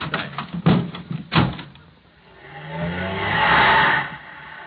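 Car door sounds and an engine as a car drives off: a few sharp knocks and thuds first, then an engine hum that swells steadily and fades away at the end.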